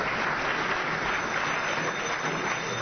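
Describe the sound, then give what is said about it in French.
Audience applause at the closing day of an event, greeting a special adviser: steady, dense clapping that continues unbroken and evenly loud throughout, with no voices standing out. “Est-ce qu'on peut acclamer pour Madame la conseillère spéciale, s'il vous plaît? Est-ce qu'on peut l'acclamer?”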